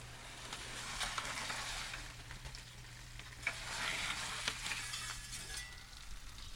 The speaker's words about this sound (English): So I'm just going to keep rotating this these shanks so that they crisp up evenly on the outside, and not only rotating the pan but also rotating the shank